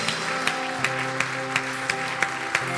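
A church audience applauds to welcome new believers with a steady wash of clapping and regular accents, over sustained music chords.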